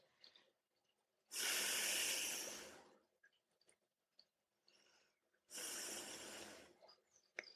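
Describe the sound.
Slow exhale during a breathing prayer, heard as two long, loud, breathy rushes of air, each lasting over a second and separated by near silence.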